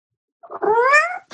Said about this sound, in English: My cat has some things to say